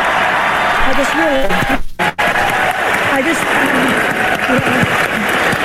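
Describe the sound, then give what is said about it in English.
Applause from an awards ceremony audience, including the cast of RuPaul's Drag Race, as they rise during an acceptance speech. Loud, steady clapping runs throughout, with voices talking over it and a brief drop near the middle. “the cast of RuPaul's Drag Race flew out of their seats and clapped when she said this.”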